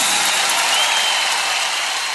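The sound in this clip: An audience applauds a tropical music band with a dense, steady rush of clapping that stays loud and even, then eases slightly toward the end.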